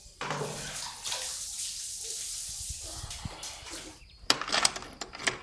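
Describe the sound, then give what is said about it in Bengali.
Water is scooped with a small pot from iron jars into a bucket for bathing. A long rushing splash and pour is followed near the end by a few sharper, quick splashes. “খাজাঞ্চি প্রত্যেক জ্বালা হইতে দুই ঘটি করিয়া জল তুলিয়া নিজের বালতি ভর্তি করিয়া লইল তারপরে সম্মুখের পোড়ো জমিটার দক্ষিণ পশ্চিম কোণের পাথরটায় স্নান করিতে বসিল”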